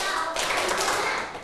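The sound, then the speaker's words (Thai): A class of pupils clapping their hands together in a short, fairly loud burst, the group's claps blurring into one continuous patter. “ปรบมือห้าครั้ง”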